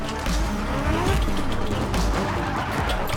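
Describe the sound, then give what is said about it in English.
Drift cars skid with squealing tires during a drifting competition on a custom track, a loud, continuous roar of engines and rubber screech that never lets up. “12 of the world's top drifters burning rubber on a custom track where power and precision are paramount.”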